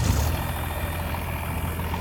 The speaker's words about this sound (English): This is the sound of me maneuvering a stationary mini excavator to dig in a big pit of dirt.